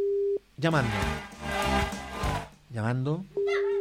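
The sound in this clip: A steady telephone call tone sounds while a number is dialed, a flat mid-pitched hum at the start that returns at the end. A person talks loudly in between.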